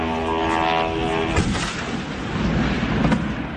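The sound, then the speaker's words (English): An oil refinery in the southeast of the city being struck during a drone attack, heard as a loud, broad roar with two sharp blasts punching through the rumble. “that was the sound of an oil refinery in the southeast of the city being hit”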